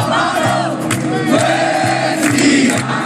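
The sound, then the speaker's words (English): Thousands of protesters crowd the streets of Myanmar against the military coup, their loud massed voices chanting and shouting in steady swells, with pitched cries rising above the dense roar throughout. “sounds from Myanmar this morning. Thousands of people are on the streets protesting against Monday's coup.”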